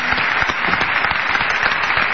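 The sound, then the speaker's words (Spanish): An audience applauds a technician during the thank-yous at a stage show. The clapping is dense and steady, loud and continuous throughout, with no break or talk. “Y un aplauso para Vincent, caramba. Vamos.”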